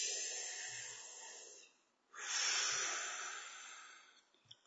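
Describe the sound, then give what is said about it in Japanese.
A deep breath is drawn and released as two long, breathy rushes of air separated by a brief pause. The breaths are heard alone, with no talk. “はい、深呼吸”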